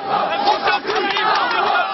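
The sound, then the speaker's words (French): Agitated crowd of about 200 youths shouting insults, a loud, dense mass of overlapping yelled voices that pulses slightly but never lets up. “Autour, 200 jeunes, un comité d'accueil plutôt agité.”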